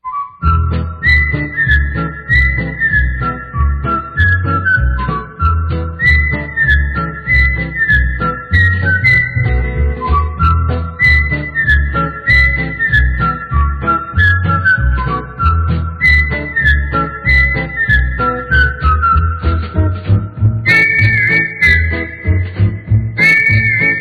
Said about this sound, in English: He's just whistling.